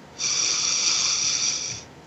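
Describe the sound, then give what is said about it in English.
A deep breath in, drawn as a steady, breathy hiss that starts abruptly, holds evenly for well over a second, then stops cleanly, with no voice over it. “take a deep breath in”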